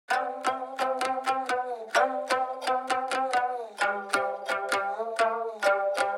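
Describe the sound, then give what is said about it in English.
Plucked nyatiti stringed instrument carries the lead melody of a soundtrack piece, many bright, quick notes in a steady, repeating rhythmic pattern, clear and alone without voices. “Let's break it down, starting with the odd-sounding lead melody, which was played on a stringed instrument called a nyatiti. That's the one that sounds like this.”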